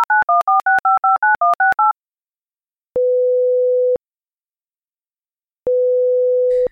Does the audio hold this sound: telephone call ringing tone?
yes